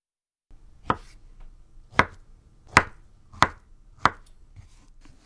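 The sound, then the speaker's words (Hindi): A knife chops peeled halves into small 1 cm cubes with five crisp, evenly spaced strikes. Fainter taps follow near the end, and there is no talk. “छिलका उतारने के बाद इन निसफ टुकड़ों को लंबाई में काट कर हर टुकड़े के आर पार छुरी चलाते हुए 1 सेंटीमीटर के छोटे टुकड़े काट लीजिए।”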